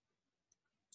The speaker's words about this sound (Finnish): otetaan tuosta, niin mä näytän. Minä klikkaan.